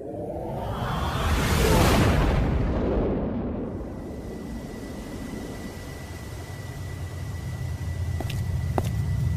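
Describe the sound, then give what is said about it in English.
Sci-fi effect of a starship firing quantum torpedoes from its aft tubes: a loud whooshing blast that swells and then fades into a long, rumbling roar, with a few faint sharp ticks near the end. “And Lieutenant, if you'd care to fire a few more quantums out of the aft tubes”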